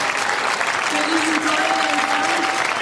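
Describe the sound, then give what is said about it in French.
An audience applauds at a political gathering where election results are being discussed. The steady, continuous clapping runs throughout, and a voice speaks over it partway through. “Merci beaucoup pour vos applaudissements.”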